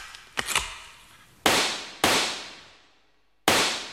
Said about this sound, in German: Sie können sich nicht vorstellen, wie sehr Schießen mich entspannt.